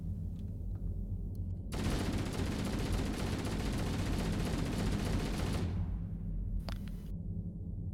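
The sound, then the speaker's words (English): Gunfire from a remastered video game: a dense, rapid burst of automatic shots lasting about four seconds, set between quieter stretches with a few faint isolated sounds. “I'm not shooting at an enemy, I was just shooting to shoot. Did you know that old graphics and new graphics also come with matching sound effects?”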